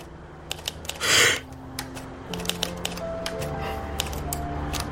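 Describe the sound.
Typewriter keys strike in sparse, irregular sharp clacks, spaced apart, with a soft whooshing burst early on and faint low sustained tones humming underneath.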